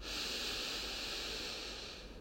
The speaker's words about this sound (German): Und dann atme ruhig nochmal zwei, dreimal in deinem Rhythmus. Tief durch die Nase ein,